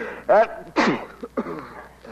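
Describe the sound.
A theatrical sneeze in a comedic ghost scene: a voiced, rising intake bursting into a loud, breathy, noisy blast, followed by softer vocal sounds.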